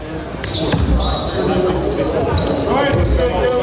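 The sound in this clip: Basketball dribbled on the court during a high school game: a few dull, low bounces under constant crowd noise and voices from the gym.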